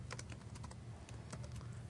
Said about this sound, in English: So I don't feel terribly bad just typing this one out.